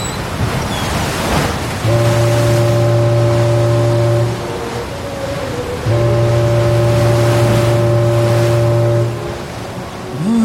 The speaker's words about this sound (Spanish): Hace casi un mes que estamos en este barco. Ya hizo escala en Brasil y estamos por arribar al puerto de Buenos Aires.